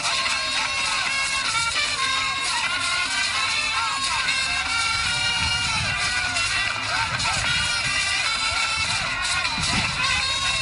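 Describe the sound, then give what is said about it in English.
Ghanaian football supporters cheer and shout at Kotoka International Airport in Accra, welcoming the Black Satellites team home with dancing and jubilation. A dense, loud wall of crowd voices runs steadily throughout without a break. “The Black Satellites arrived in Accra on Sunday and were given a hero's welcome by Ghanaian football supporters at the Kotoka International Airport with dancing and jubilation.”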